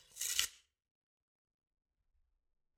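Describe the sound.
An envelope being opened gives a brief, papery tearing rustle lasting about half a second, followed by silence and a faint click at the very end.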